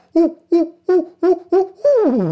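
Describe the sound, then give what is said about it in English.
A human voice imitates a barred owl's call with six low, hooting syllables in a steady rhythm. The last syllable is drawn out and slides downward in pitch. “there were two barred owls calling to each other. And they are known for saying, "Who cooks for you?"”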